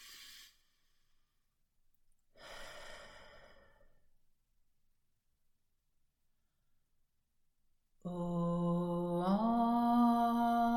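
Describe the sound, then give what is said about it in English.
A deep breath drawn in through the nose and let out through the mouth, a soft breathy exhale standing alone in quiet, followed after a pause by a sustained, steady sung tone that steps slightly upward. “Take a deep breath in through your nose, out through your mouth.”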